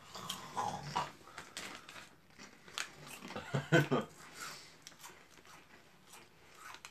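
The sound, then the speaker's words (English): Cheddar Cheez-It crackers crunch under chewing, a faint, irregular run of many crisp bites and grinding chews, loudest in a brief cluster midway. “Just casual snacking. I don't like these. I taste like gross Cheetos. Cheez-Its.”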